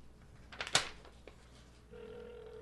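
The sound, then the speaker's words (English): A telephone ringing. A sharp clattering burst comes first, then a steady, low, buzzing electronic ring tone starts partway through and holds to the end. “That's the phone ring.”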